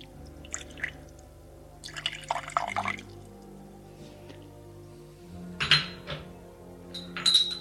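Coffee with a dash of milk poured and served by a servant: quiet trickling liquid and light clinks of cups and dishes, intermittent, with a few sharper chinks near the end.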